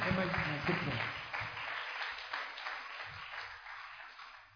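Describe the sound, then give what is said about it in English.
A church audience clapping, a dense burst of many hands that is loudest at the start and gradually thins and fades, with voices calling out beneath it. “Give the Lord a better clap offering.”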